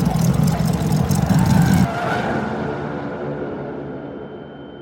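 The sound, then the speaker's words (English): Tyres of a brand-new car skid as the wheels lose traction on a wide turn: a loud, harsh rushing screech for about two seconds that then drops off and fades away. “You stay the course when, all of a sudden, your wheels lose traction with the road.”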